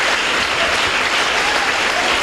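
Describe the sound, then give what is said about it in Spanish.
An audience bursts into dense, steady applause, loud and continuous, with no clear voices. “Yo no entendí yo por qué aplauden ustedes.”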